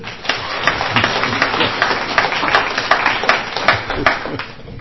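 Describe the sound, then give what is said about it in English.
Loud, steady clapping from an audience honouring a speaker's decades of sobriety, with sharper individual claps popping out of the dense applause at irregular moments. “it's funny, we applaud when people tell us how long it be since I haven't drank”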